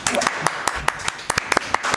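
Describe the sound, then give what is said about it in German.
Scattered clapping from a small group, applauding a wine princess during a wine tasting: a few sharp, uneven claps spread across two seconds, with some voices mixed in. “Nochmal ein Applaus für Niki.”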